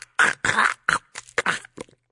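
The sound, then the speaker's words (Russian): Harsh coughing and spluttering voiced by a person imitating a creature choking on a bite of food and spitting it out; a quick series of rough, throaty bursts with short gaps, heard alone. “тут же выплюнул его и закашлялся.”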